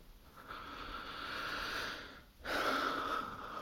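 Soft breathing close to the microphone, faint and airy: a long breath swells and fades, then after a brief dip a second, slightly stronger breath follows, with no speech.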